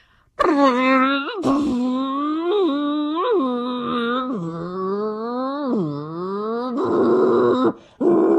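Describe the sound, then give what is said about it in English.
A human voice imitates a Porsche Formula One-derived V10 racing engine with a loud, sustained buzzing tone. The pitch climbs in repeated revving sweeps and drops back between them, ending in a short, brighter burst. “It has a Formula One-derived racing V10 engine, and this is what it sounds like.”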